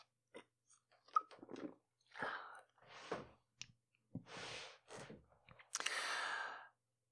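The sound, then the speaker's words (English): Quiet sips of water, with soft slurps, small mouth clicks and swallows broken by breathy exhales, ending in a longer airy breath. “So without any further ado beyond this sip of water,”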